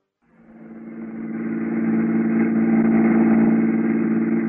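Taxi engine driving through Rome late at night. It fades in from silence and settles into a steady mid-pitched hum that stays even, with no voices.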